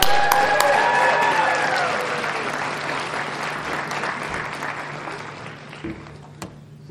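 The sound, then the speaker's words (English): A crowd applauds to welcome a speaker, with dense, steady clapping that slowly thins and fades over several seconds and a few isolated louder claps near the end. “So let's show him a lot of love, make him feel super welcome. Give it up for Josh Wilson,”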